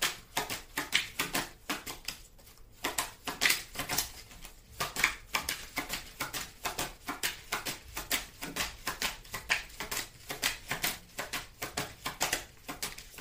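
Playing cards being dealt by hand, heard as many quick, crisp flicks and slaps in a steady, uneven patter that runs throughout, fairly quiet, with no talking.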